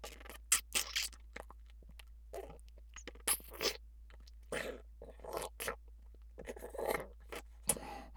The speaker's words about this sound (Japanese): それではいただきます。